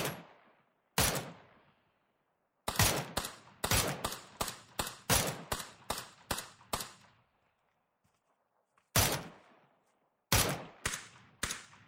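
Gunshots ring out as sharp, loud cracks: a few isolated shots, then a rapid run of many shots in steady succession, then more scattered shots, all separated by stretches of silence and with no voices.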